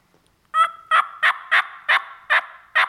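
Imitated wild turkey hen yelping, seven sharp, evenly spaced yelps with an angry, higher-pitched edge, loud and clear after a brief silence.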